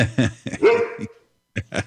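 Dog barking: a rapid series of sharp barks and yips, with one drawn-out whining yelp in the middle, a brief pause, then two more quick barks.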